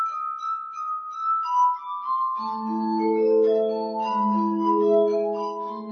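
Glass rings out in clear, sustained tones. A single high note shifts pitch at first, then gives way to a denser, layered cluster of overlapping glassy pitches that keeps ringing to the end.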